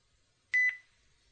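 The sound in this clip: A phone call ends with one short electronic beep. The fairly high, clean tone stands alone against near silence and fades quickly.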